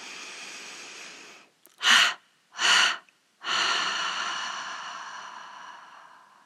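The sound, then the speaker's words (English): A gentle breath through the nose during a guided meditation breathing exercise, followed by three exhalations through the mouth. The first two are short, soft puffs and the third is long and slowly fading. No voices are heard. “And now gently inhale through the nose and do a triple exhalation through the mouth.”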